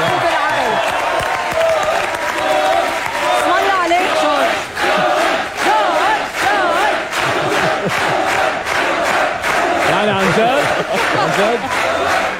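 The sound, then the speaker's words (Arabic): Audience applause and cheering, loud sustained clapping mixed with whoops and shouts, swelling and dipping in waves throughout. “لا بس الزقفة بتستاهلوها انتو الجمهور عن جد.”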